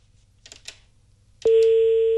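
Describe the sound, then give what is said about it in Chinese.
A telephone ringback tone sounds as a call connects. A few faint, brief sounds come first, then one loud, steady tone switches on and holds to the end. “我们看一下这个电话能不能接通啊。”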